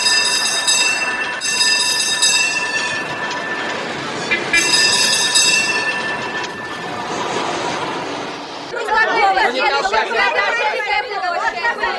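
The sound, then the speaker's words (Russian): A tram rolls along city rails with high, ringing wheel squeals that rise and fade over a rumbling run, amid busy crowd chatter. Near the end, people talk more closely over the rail noise. “Трамвай.”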